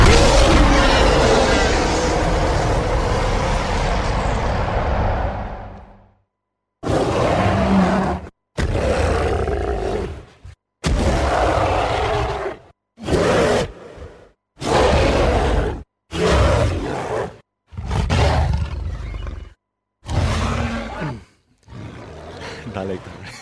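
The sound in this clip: Giant ape roaring as a film sound effect: one long, deep, loud roar followed by many shorter roaring bursts, each separated by brief silences.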